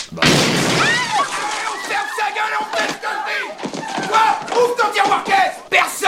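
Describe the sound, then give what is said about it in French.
Gunfire in a French film scene opens with a sharp, loud burst, followed by agitated shouting voices that continue throughout. “il y a un passage avec une arme à feu. Écoutez bien, c'est celui-ci.”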